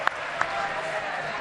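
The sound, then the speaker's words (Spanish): A brief wash of audience applause, dense and steady, made of many overlapping claps with a couple of sharper pops near the start. “Un aplauso para Rafael.”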